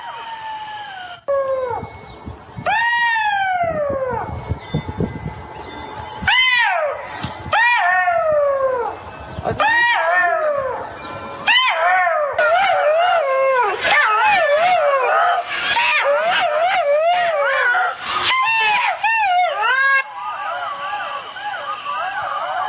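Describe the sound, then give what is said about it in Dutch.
Jackal calls ring out as many long, descending howls, then break into a dense chorus of overlapping yips, wails and whimpering cries that stays loud and busy for most of the stretch. “So I didn't know what jakhals sounded like, so I got this YouTube clip.”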